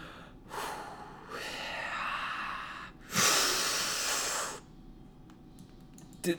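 Two long, breathy gusts of breathing in and out straight into a microphone, the second louder and rougher, followed by a short quiet stretch and a faint click at the end.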